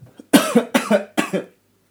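Coughing fit from someone whose coffee went down the windpipe: three harsh, fairly loud bursts, each with a quick double hack, followed by silence.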